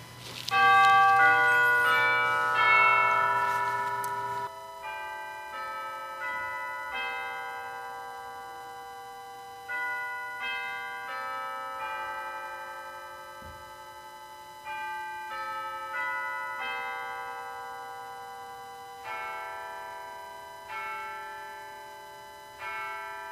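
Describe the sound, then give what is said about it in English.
A clock chimes the hour at the start of a church service. Clear ringing bell tones follow one another in a measured melodic sequence, each note ringing on and slowly fading before the next. “now let us begin with chiming of the hour.”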